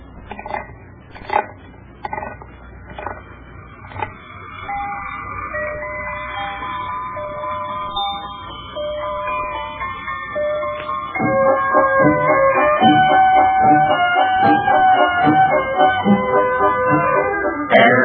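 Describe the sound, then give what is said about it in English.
A wound-up toy merry-go-round spins and plays music: a few sharp clicks at the start, then a tinkling, music-box-like melody that carries on steadily and grows louder toward the end. “it's a little toy merry-go-round. Well, what do you want that for? Well, now, here, let me show you. First, you wind it up, and then you release the lever, and it spins around and plays music.”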